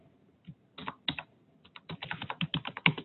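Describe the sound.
Typing on a computer keyboard: a few scattered keystrokes at first, then a quicker run of many irregular clicks, fairly faint and with no talk.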